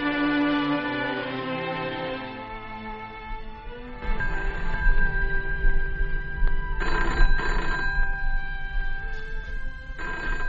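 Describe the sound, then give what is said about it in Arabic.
A telephone bell rings with a loud, continuous metallic jangle. It starts after about four seconds of steady tones and carries on to the end with a few brighter bursts. “أنا اللي هرد على التليفون”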